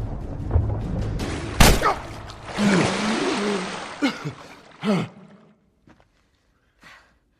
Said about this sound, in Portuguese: Nossa. Eu atirei mesmo no cara, né?